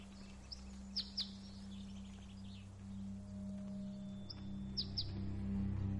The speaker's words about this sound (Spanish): Al percibir el canto del pájaro, Alma esboza una serena sonrisa.